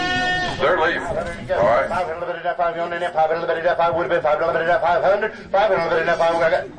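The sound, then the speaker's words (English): Goats bleat at a goat auction in North Carolina, with many loud, overlapping, wavering cries following one another continuously. “Curtis Raines' goats here, because he is selling his stuff here today. All these goats,”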